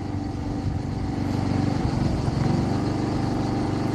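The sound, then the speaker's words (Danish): A lawn mower engine runs while mowing grass, giving a steady, droning motor hum with a low, rough pulse that stays at an even loudness throughout, with no voices. “Er du ved at slå græs”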